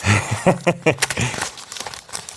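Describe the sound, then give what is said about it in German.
A paper envelope being torn open: crinkling and tearing paper rustles in short bursts, mixed with voices. “Mach mal auf. Also so viel zu, diese Umschläge gehen jetzt einfacher auf.”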